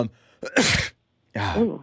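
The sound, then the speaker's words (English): A sneeze from someone suffering from allergies, heard as two loud, breathy bursts separated by a brief silence, the second carrying a voiced, strained edge. “she's sneezing and coughing a lot. It's just allergies.”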